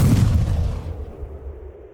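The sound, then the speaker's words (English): A single heavy gunshot from an improvised slug thrower loaded with powder and slugs, a loud low boom at the start that fades away over about two seconds. “He pulled the trigger, blasting the tailed mutant.”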